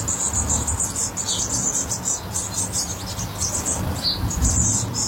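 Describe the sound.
Nestlings in the nest chirp as they are fed caterpillars: a rapid stream of high, thin calls repeating steadily over a low background rumble.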